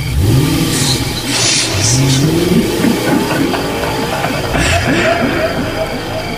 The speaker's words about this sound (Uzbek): Gazni bos, ketdik.